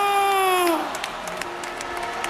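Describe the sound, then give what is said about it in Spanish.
A stadium crowd gives a big ovation for Spain's champion team as a player comes out carrying the cup. A voice is heard briefly at the start, then sustained clapping and cheering continue at an even level. “También, gran ovación a Baena. Sale con la copa.”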